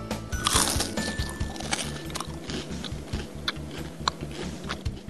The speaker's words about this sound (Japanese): 聞こえますか、このサクッというこのね、カラッと揚がってる天ぷらの美味しいこと